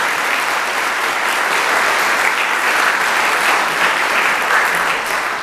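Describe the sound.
An audience gives dense, steady applause, with many hands clapping together in an even wash of sound that stays loud and unbroken from start to finish.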